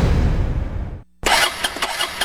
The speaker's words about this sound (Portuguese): não acredito não, de novo, no prego. Que isso aí, macho? Essa minha moto só vive no prego.